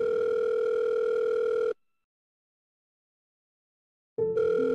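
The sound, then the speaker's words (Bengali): A telephone tone sounds while a call is placed to a wife: a steady, unbroken electronic tone that cuts off abruptly, leaves a long stretch of silence, then returns just as steadily. “Rabinbabu তার স্ত্রী দীপাকে একবার phone করলেন”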